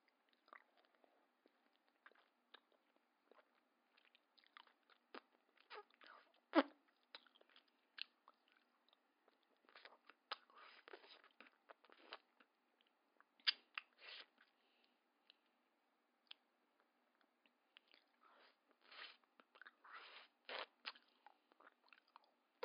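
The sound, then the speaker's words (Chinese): Someone bites and chews an ice pop on a hot day: many faint, irregular crisp crunches and soft chewing sounds in clusters, with no talking. “我在吃冰棍啊”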